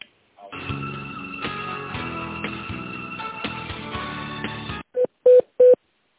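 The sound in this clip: Telephone keypad tones while a call is transferred: a few seconds of tinny music stop abruptly, followed by three short, steady beeps in an even rhythm.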